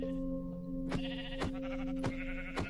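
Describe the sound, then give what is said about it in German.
Sheep bleating in a video game: a few short, sharp bleats over a steady background tone. “Hier sind Schafe, das gefällt mir ganz besonders gut.”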